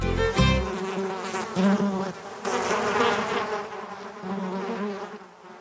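Black flies buzzing in the Adirondack Mountains, a dense, continuous insect drone with a steady whine that swells and fades slightly throughout, heard alone without talk.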